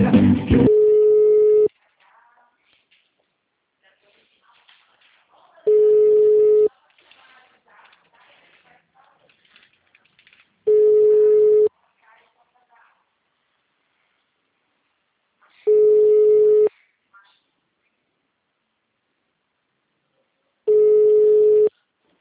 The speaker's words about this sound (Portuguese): Tá ocupado lá, viu? Deve ter colocado lá no gancho.